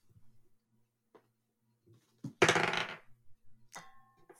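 Dice rolled during a tabletop game: a sharp clattering burst, then a few small ticks as they settle, fairly faint and with no talking.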